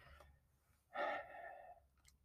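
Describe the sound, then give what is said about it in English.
A person breathes alone with no talk. One long, airy exhale stands out, louder than the faint breathing around it. “Let me get a couple of breaths in here real quick before I keep going on.”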